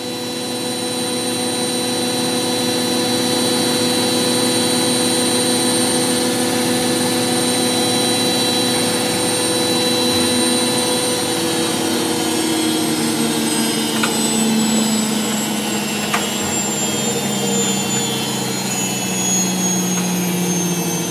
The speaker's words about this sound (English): now, here's the sound of my washing machine